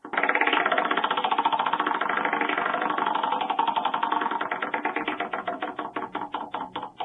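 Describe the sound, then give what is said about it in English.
A prize wheel spins with a fast run of ratcheting clicks that gradually slow, spreading further apart toward the end as the wheel winds down. “So why don't you spin the wheel? All right, here we go. Spin it.”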